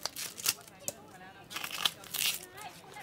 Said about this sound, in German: Gib mir jetzt mal eine von den roten Zwiebeln. So, zuerst schneide ich so hier. Dann hier.